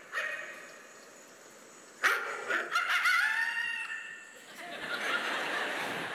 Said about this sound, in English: That's my dog. Watch this.